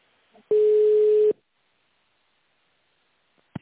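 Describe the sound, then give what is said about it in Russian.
A single steady telephone tone sounds while a call is transferred, a flat mid-pitched beep lasting under a second, then silence and a short click at the end. “переключаю вас на коммерческого директора, минутку”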